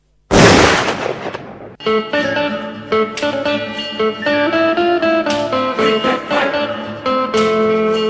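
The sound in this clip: A soldier's rifle gunshot at an execution: one sharp, loud blast with a decaying tail, followed by dramatic music.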